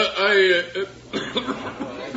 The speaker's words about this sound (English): I'm sorry. I just coughed.